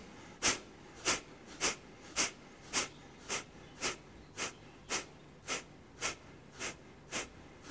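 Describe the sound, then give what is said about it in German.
Kapalabhati yoga breathing: a steady run of more than a dozen sharp, forceful nasal exhales at an even, quick rhythm, each a short breathy puff of similar loudness, with faint quiet between them and no talking. “Als kleine Variation kannst du den Kapalabhati-Atem üben.”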